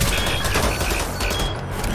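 Rapid gunfire in the video game Wolfenstein: The New Order, a dense, loud barrage of overlapping shots that continues throughout and eases slightly near the end.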